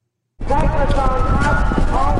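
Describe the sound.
A horse gallops in a timber race over wooden fences with a jockey in the saddle. Rapid, loud hoofbeats start suddenly after a moment of silence, and a voice sounds over the pounding.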